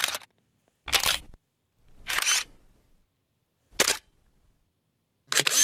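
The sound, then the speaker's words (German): An analog film camera's mechanism clicks and whirs in five separate bursts with silence between them, some short and sharp, others longer with a trailing mechanical whir. “Tja, da geht was auf, da geht was zu, da bewegt sich was und am Ende ist ein Film, den man dann zum Entwickeln bringt und dann kommen dann Fotos raus.”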